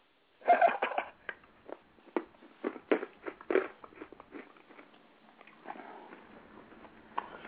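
A chewable Airborne medicine tablet is bitten and chewed in many irregular crunches. The loudest come early and softer, patchier chewing follows, with no talking.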